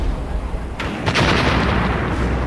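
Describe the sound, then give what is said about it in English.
An explosion in a video game: a sudden loud burst at about one second, followed by a sustained broad rumbling noise that fills the rest of the moment, with no voices. “You blew up that guy that was just getting off of death row.”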